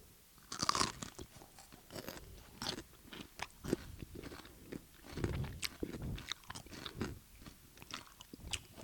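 Crisp bites and crunching as someone eats a loaded potato pickle, followed by steady chewing; many sharp snaps and wet chomps come in an irregular stream, with no talk.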